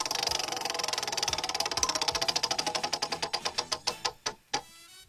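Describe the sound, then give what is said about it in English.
A big prize wheel spinning in a studio, its pointer ticking in a rapid, steady clatter that gradually slows into widely spaced, distinct clicks before stopping. “I always start it off, so I'll spin the wheel now.”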